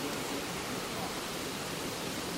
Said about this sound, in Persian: اصلا از صدای آب لذت ببرید